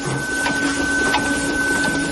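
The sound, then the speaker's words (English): Ballot counting machines run at a Pennsylvania election office with a steady, continuous mechanical whirring and a faint sustained tonal hum throughout, and no voices. “That's the sound of some of the machines that will count those ballots once they are opened”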